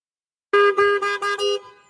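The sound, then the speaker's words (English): A car horn honks in five quick, loud bursts, then falls silent. “mais qu'est-ce que vous avez à klaxonner comme ça?”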